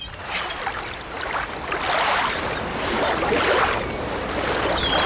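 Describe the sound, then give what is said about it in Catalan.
Waves washing onto a beach: a broad, rushing surf noise that swells and recedes in a few slow surges, steady and unbroken, with no voices. “És a la platja. És a la platja, molt bé.”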